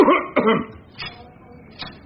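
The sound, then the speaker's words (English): A person coughs: two loud, sharp coughs in quick succession, then two fainter, shorter coughs spaced out afterward. “No, that was a real cough.”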